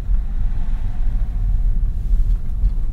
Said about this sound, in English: We're going to hear a little bit of road noise.